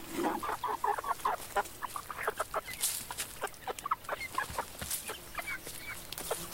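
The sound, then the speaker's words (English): Local chickens cluck in a small town, a steady run of many short, irregular clucks and squawks that overlap one another at varying loudness, with no voices. “Or even local chickens as part of a small town soundscape.”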